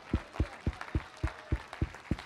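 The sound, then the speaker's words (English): A church audience claps hands together in a steady rhythm, eight evenly spaced, crisp beats at a moderate tempo with no talking over them. “Clap your hands unto him and bless his name.”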